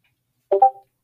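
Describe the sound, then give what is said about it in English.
A young mixed-breed house cat meows for attention: one brief two-part call, moderately faint, rising into a short chirp and trailing off, with silence around it. “If you hear like a slight meow, that's our cat. Our youngest mix. Cat. Begging for attention.”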